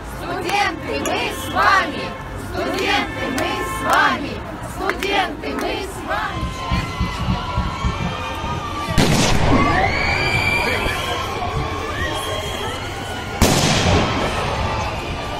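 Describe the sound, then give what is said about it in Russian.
A stun grenade exploding among a crowd of marching elderly pensioners: crowd voices and rhythmic shouting, then two sharp, loud blasts some seconds apart, each followed by a noisy, agitated crowd. “Вот видео, как в марширующих пенсионеров, пожилых людей, кидают светошумовую гранату”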